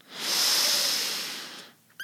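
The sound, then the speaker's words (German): A long nasal inhale through the left nostril during an alternate-nostril breathing exercise: a soft, airy hiss swells in, holds steady for well over a second, then fades, with a brief faint sound just after. “Jetzt verschließen wir bitte unser rechtes Nasenloch. Wir atmen jetzt durch das linke Nasenloch ein.”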